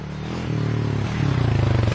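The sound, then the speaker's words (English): A quad bike, a four-wheeled off-road vehicle, drones past with a buzzing, steady engine note that shifts pitch a couple of times and grows slightly louder toward the end. “A quad is a 4-wheeler bike. You wear a helmet and act like you're racing. Here he comes now.”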